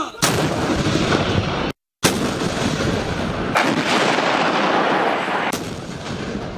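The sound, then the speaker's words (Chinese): Artillery guns firing shells as a fire team carries out a precision strike on a target: heavy, booming blasts with sustained rumbling roar, broken by one brief silence, and several sharp fresh blasts cutting in over the din. “接到指令，火力队装定射击诸元，装填弹药，对目标展开精准火力打击。 一炮，发！ 一炮，发！ 发！”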